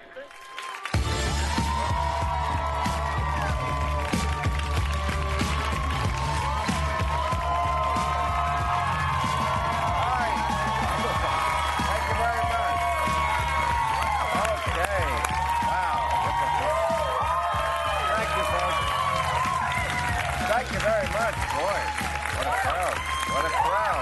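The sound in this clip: A studio audience at an HBO late-night talk show cheers and applauds for a long, unbroken stretch, with shouts, whoops and dense clapping that stay loud throughout.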